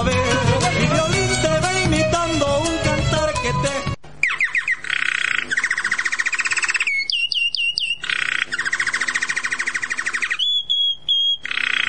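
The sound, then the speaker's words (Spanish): A goldfinch (jilguero) sings a bright, continuous twittering song of rapid trills and repeated high phrases, following a few seconds of music at the start. “Estamos escuchando al jilguero”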